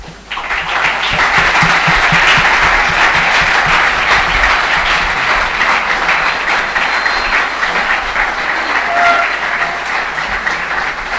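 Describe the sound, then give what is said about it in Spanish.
Audience applause after a priest's lecture at a formation course gathering: dense, steady clapping from many hands that starts abruptly and continues for about ten seconds, easing slightly near the end. “Renovamos el aplauso”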